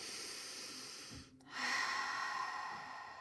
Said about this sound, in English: It's like a deep breath through your nose, right? Out through your mouth.